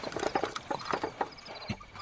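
Horse hooves clip-clop steadily as a horse-drawn carriage pulls up before a large garden, with many light, hollow hoof strikes in an even walking rhythm.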